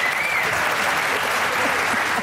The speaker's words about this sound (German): das ist ein Applaus